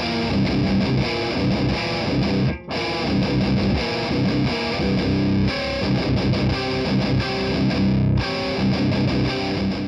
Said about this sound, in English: So this is just a straight guitar with that, I think it's a 57 that we use, nothing fancy, straight out of the board into the recording.